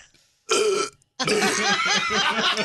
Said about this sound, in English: I feel like drinking a Coca-Cola and burping.